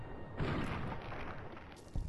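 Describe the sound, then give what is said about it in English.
Two gunshots from the video game Fallout, fired at a rat roach. The first is a muffled thump followed by a dull, lingering rumble, and the second is a brief, sharper shot near the end, both fairly quiet. “not a very good shot, but fortunately they're, it didn't take two shots to actually kill it”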